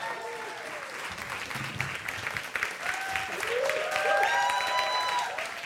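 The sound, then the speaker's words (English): An audience at a Mission India launch event applauding and cheering to welcome a speaker: dense, sustained clapping with whistles and shouts that build louder toward the end. Voices can be heard through it. “Would you put your hands together, holler like a crazy Zio people for Andy Milligan. Would you welcome Andy to come up?”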